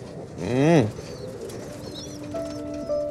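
Kept pigeons coo, with one loud, throaty call that swells and fades early on, followed by quieter, softer sounds and thin tonal notes.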